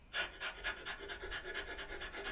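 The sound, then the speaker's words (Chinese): Quick, rhythmic breathing during a rapid breathing exercise: many short, soft inhalations, each followed by a passive rebound exhale, at a fast, steady pace of about four breaths per second. “所以这个弹回来形成了我自动的呼气，我并没有把呼气也当做主动，所以大家一定要注意这点。再做一下示范，看好啊，一。二三，”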